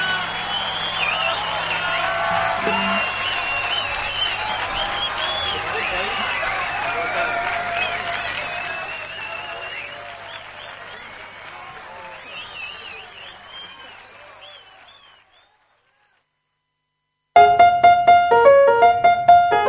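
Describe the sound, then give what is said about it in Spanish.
Audience applause with cheering after a jazz trio of guitar, double bass and drums, loud and dense for several seconds, then thinning and fading to silence before music begins. “Fuerte el aplauso, Walter Manosetti Trío.”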